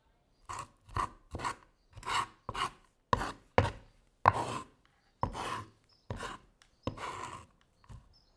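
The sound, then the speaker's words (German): A knife scrapes salted, peppered garlic across a board onto a plate in many short, rasping strokes, each a dry, gritty scrape with brief pauses between. “Nun schiebe ich den gesalzenen und gepfefferten Knoblauch mit dem Messer auf den Teller.”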